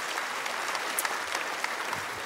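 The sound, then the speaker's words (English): Audience applause in a church, a steady, even wash of many hands clapping through the whole short stretch, with no voices over it. “you can applaud for that, by the way. Go. That's your cue. Go.”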